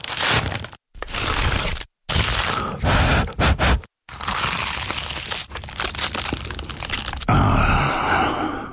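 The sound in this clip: Crunchy bites into an award-winning Dad's Pies baked pie: loud crackling and crushing of pastry in several bursts split by brief silences, then a longer stretch of steady crunching chews.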